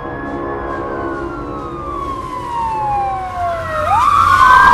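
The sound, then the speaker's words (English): A police car passes with its siren wailing loudly over steady road noise. The siren tone glides slowly downward, then swoops sharply back up to a higher pitch near the end. “He watches a police car pass and gulps.”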